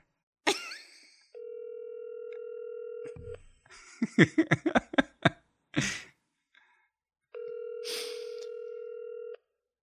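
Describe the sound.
Telephone ringback tone from an outgoing phone call: two long, steady buzzing tones separated by a stretch of clicks and rustling, with a short breathy sound at the start.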